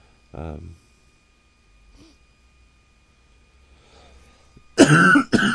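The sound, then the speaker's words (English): A single short cough comes near the start, followed by a few seconds of near quiet with faint breaths, and then a person begins speaking. “excuse me, it's just a cough boo.”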